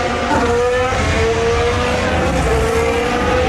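Formula 1 racing car engine on track at Spa-Francorchamps, a loud, continuous high-pitched engine drone with steady tonal harmonics throughout.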